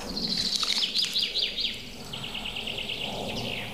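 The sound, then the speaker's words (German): Goldcrest calling: a rapid series of thin, very high-pitched notes repeats at first, then fades into fainter high calls. “Oh, da war ein Goldhähnchen.”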